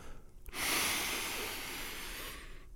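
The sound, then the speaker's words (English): A deep, slow breath drawn through the mouth, heard as a single steady airy rush lasting about two seconds, rising abruptly, holding, then easing off, alone with no talking. “And a second, a big breath in and out. And finally, one more big breath in”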